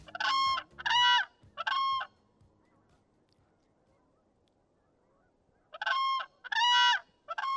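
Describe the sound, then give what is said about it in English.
Loud, trumpeting bugle calls of a whooping crane, with a quick run of about three harsh calls, a long quiet pause, then another similar run of calls. “That's the call of the whooping crane”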